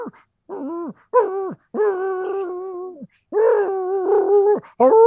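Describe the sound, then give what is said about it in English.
A voice imitates a dog whimpering as its sedative wears off, making a run of high, nasal whines. Several drawn-out cries come with short gaps between them, some bending downward in pitch at the end. “Clue starts to whimper, and you can tell that whatever the sedative that Aloysius gave him is starting to wear off”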